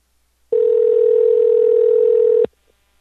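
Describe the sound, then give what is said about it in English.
Ringback tone of an outgoing telephone call ringing out: one steady, mid-pitched electronic tone lasting about two seconds, loud and alone, then silence. “let's call him one more time. One more time.”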